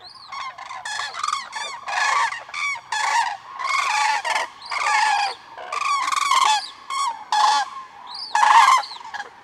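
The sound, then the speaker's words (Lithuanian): Common cranes calling as they fly over: many loud, far-carrying trumpeting calls follow one another in quick succession, often overlapping, with no other sounds. “Akivaizdu, kad tai lengviausiai atspėjamas paukštis, pilkoji gervė. Čia girdėjote praskrenančių gervių klytelimus”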